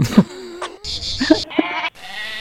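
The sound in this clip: A lamb bleats in several loud, wavering calls that follow one another in quick succession with hardly a pause between them.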